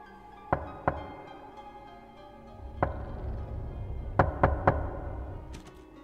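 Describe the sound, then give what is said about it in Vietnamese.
Sharp knocks on a door, fairly faint, in a few groups: two knocks, a single knock, then three quick knocks in a row, over a low, quiet background. “tiếng gõ cửa bất giác lại vang lên một lần nữa, rất khó chịu, ba nhịp một.”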